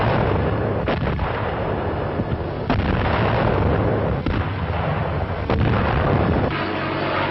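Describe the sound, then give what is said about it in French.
Heavy artillery barrage fire backing an infantry counteroffensive, a loud, unbroken roar of dense booms with a few sharper blasts standing out, and no voices. “passer à la contre-offensive avec l'appui d'incessants tirs de barrage de l'artillerie lourde”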